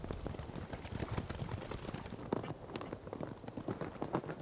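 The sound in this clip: Hoofbeats of wild horses as the stallion Prince chases off young males: a rapid, dense clatter of hooves striking the ground, continuous and unbroken.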